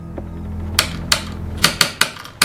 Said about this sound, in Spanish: ¿Debes teclear tan fuerte?